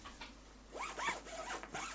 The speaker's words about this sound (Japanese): チャックを閉めたらもうこれで終わり。